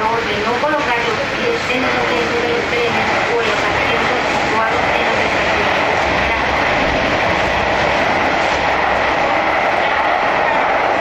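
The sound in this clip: A subway train on the blue line runs with a loud, steady rumble and a whining mechanical drone that continues without a break from start to finish.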